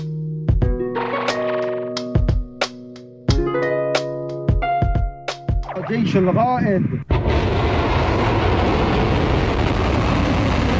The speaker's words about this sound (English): That's a daytime launch of an Iranian Seiji ballistic missile.